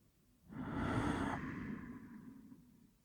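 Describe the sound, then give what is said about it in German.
A deep breath drawn in and let out: one long, airy rush of breath that swells quickly, holds, then slowly fades over a few seconds, alone with no talk. “Atme tief ein und atme tief aus.”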